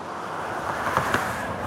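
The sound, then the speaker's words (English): Cars driving past outdoors, a steady broad hiss of traffic with a mild swell as a vehicle goes by, and wind noise throughout. “Waiting for the cars to go by.”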